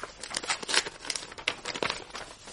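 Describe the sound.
A letter envelope being torn open, with a quick burst of dry paper rips, crinkles and rustles.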